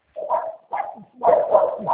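A dog barks during a phone call in a few quick, mid-pitched bursts separated by short pauses, fairly loud and with no talk over it.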